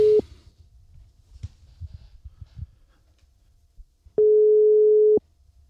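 Telephone ringing tone heard while placing a call to a theatre company's communications officer: a steady mid-pitched tone cuts off at the very start, then after a quiet gap a second tone sounds for about one second.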